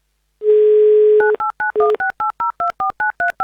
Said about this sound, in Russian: незамедлительно набираю ваш номер.